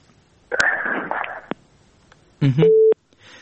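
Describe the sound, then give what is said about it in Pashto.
Busy tone after a phone call cuts off: a crackly burst of line noise, then a single steady mid-pitched beep lasting about half a second. “د وردګ صاحب اړیکه شلېدلې”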